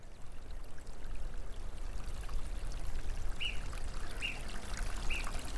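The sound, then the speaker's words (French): A mountain torrent reduced to an unusually thin trickle for the season flows as a steady, even rush of water throughout. Three brief, high bird chirps sound over it near the end. “Et donc l'eau, et on va aller voir, le torrent.”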